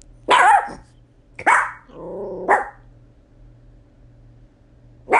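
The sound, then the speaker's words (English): A pet dog gives a few loud, sharp barks spaced apart, with a low, rumbling growl between two of them and quiet gaps in between. “My dog is barking.”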